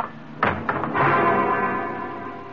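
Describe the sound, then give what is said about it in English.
Radio-drama sound effect of an automatic pistol struck across a man's head: two dull thuds in quick succession, followed by a loud rumbling wash that slowly fades. “But Middleton used the opening to lay his automatic across my head.”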